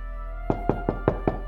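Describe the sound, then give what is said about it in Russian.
Five evenly spaced knocks on a door, sharp and moderately loud, sounding alone over a low steady hum. “В дверь снова раздался стук.”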